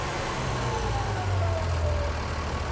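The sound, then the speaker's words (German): A motor on a test run being throttled back to idle, a steady droning rumble whose higher tones sink gently in pitch as it settles. No talk is heard over it. “Kannst Gas wegnehmen. Lang, ne? Gehen wir runter auf Standgas.”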